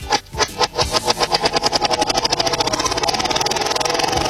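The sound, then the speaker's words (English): A prize wheel spun backwards gives a loud stream of ratcheting clicks that start spaced apart and quicken into a fast, buzzing rattle, with no voices. “I'm spinning it backwards, okay? I'm going to spin the wheel backwards.”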